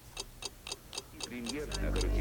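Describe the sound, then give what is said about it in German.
A clock ticking in a steady, even rhythm of about eight sharp, bright ticks, roughly four per second; a voice starts speaking over the later ticks as a low rumble swells underneath. “Die Uhr tickt. Sie tickt unaufhaltsam.”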